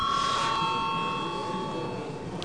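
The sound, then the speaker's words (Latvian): An electric bell rings in the Latvian parliament chamber to call members to register for a vote, sounding as one steady sustained tone throughout that fades slightly toward the end, with no voices. “Un lūdzu zvanu reģistrācijai par 9. jūnija sēdes noslēgumu.”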